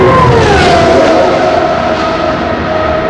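Race car engine roaring at speed down the main straightaway of an oval during qualifying, a loud, unbroken drone whose harmonic whine sags slowly lower over about three seconds.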